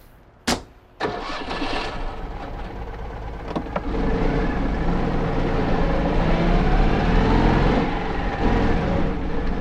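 A car engine cranks and catches, then runs steadily as the vehicle moves off. An earlier sharp thump comes first. The engine note grows fuller and louder midway and holds a constant rumble to the end, with no talk.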